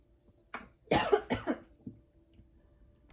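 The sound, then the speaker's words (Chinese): A person who has just choked lets out a short burst of several harsh coughs, the loudest in the middle, then a fainter final cough before quiet returns. “不好意思，我刚刚突然呛到，所以我有先按下暂停。”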